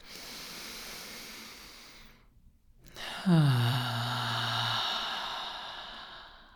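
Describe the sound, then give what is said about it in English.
Deep breath in and out during a guided grounding meditation: a long, airy inhale, a short silent pause, then an audible exhale that turns into a low voiced sigh before fading. “taking a deep grounding breath”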